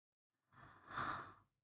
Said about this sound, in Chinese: 你干嘛这么用力呼吸啊？你这么用力呼吸，会很难受的。